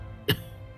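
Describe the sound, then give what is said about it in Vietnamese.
An old man coughing up blood gives one short, sharp cough, a single abrupt burst that stands out against a quiet background. “cụ Đồ Doãn ho ra một búng máu.”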